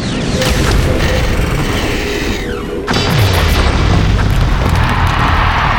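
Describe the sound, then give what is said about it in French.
A loud, booming explosion as a combat machine is blown apart during a fighting match. A dense, heavy roar fills the whole clip and shifts abruptly partway through, with no voices. “La machine qui allait tirer s'est littéralement fait éclater!”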